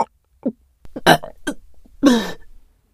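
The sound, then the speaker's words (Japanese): A loud, drawn-out burp erupts near the end, rough and throaty, after a few shorter throat sounds with quiet gaps between them. “画面揺れちゃうくらいの爆音ゲップでちった。”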